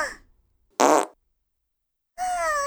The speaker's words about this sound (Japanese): くすぐりとおならのコンビネーション攻撃だよ